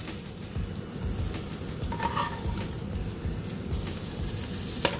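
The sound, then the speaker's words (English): An omelet sizzles steadily in a frying pan while it is folded, a constant crackling hiss with a few light scraping and clinking touches of the utensil against the pan. “Now I'm about to fold my omelet.”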